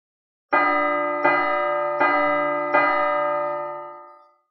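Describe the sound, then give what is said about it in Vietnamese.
A giant ancient bell is struck four times in an even, slow rhythm, each loud metallic strike ringing with bright overtones into the next, the last one decaying gradually into silence. “Liên tục 4 tiếng chuông, thêm vào 2 tiếng trước, tổng cộng là 6 tiếng.”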